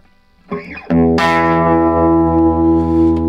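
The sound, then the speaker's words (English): An electric guitar plays straight in through Gibson 335 humbuckers: a short plucked note, then a loud, distorted chord that rings out and sustains to the end. “And that is straight in Gibson 335 humbuckers.”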